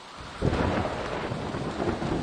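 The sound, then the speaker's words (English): Heavy rain in a thunderstorm, with a deep roll of thunder breaking in early and rumbling on beneath a dense, steady hiss of downpour throughout. “Soon, the rains came.”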